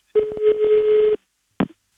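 A telephone number is dialled: a steady low tone sounds for about a second, broken by a few quick clicks, then one short separate click follows after a brief silence.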